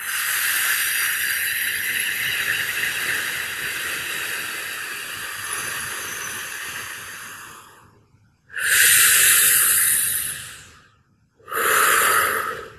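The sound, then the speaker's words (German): Deep, forceful breaths in and out, loud and airy, with a hissing quality. One long breath lasts about eight seconds, followed by two shorter breaths separated by brief silences. No voices are heard. “Und das macht natürlich Geräusche und das klingt dann ungefähr so, wenn du die Luft einatmest. Und wieder ausatmen.”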